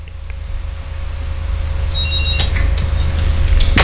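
Telephone ringing with an incoming call: one brief, bright electronic ring, high-pitched and buzzy, sounds partway through over a steady low hum and rumble. No one speaks.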